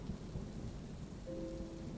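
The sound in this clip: Rain falling in a dark downpour, a faint, steady hiss of drops with a low rumbling underneath that continues evenly throughout.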